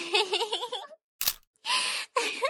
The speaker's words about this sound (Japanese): 写真撮っちゃった。